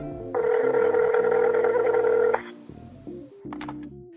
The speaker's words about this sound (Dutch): Ik ga haar bellen.